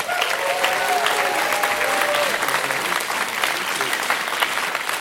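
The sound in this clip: Sustained applause from a comedy show audience for comedians on stage, loud, dense clapping that stays steady for the whole stretch.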